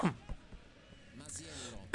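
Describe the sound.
A sports commentator coughs after saliva goes down the wrong way during a football match, with harsh bursts at the start and end and softer throaty sounds between.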